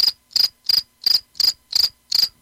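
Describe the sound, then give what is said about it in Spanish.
Cricket chirping sound effect: seven rapid, high-pitched trilled bursts, evenly spaced and equally loud, with silence between them and no other sounds. “De hecho, por aquí tengo un efecto de un grillo.”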